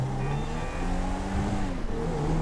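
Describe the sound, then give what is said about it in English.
A car's engine drones steadily as the car drives too fast, a continuous, even mechanical hum with no pauses and no talk. “You're going to end up in a wreck. Take your time and drive. You're going too fast.”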